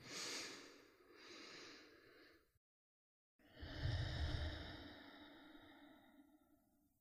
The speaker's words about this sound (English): Inhaling fully into belly, chest, head, exhaling, letting go. One more time together.